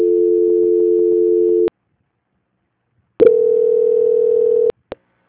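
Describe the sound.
Steady mid-pitched telephone tone during a call transfer: two long, even tones separated by about a second and a half of silence, then a short click at the end. No voices.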